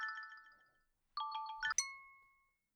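A phone ringtone rings: bright electronic chime notes in a short melodic pattern, a pause, then another run of notes ending on a high tone that rings out and fades, fairly faint and without voices.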